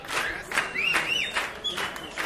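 Crowd applause and clapping, a steady dense patter throughout, with a few high gliding whistle tones rising and falling over it.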